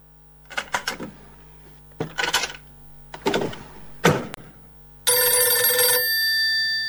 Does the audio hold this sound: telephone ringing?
yes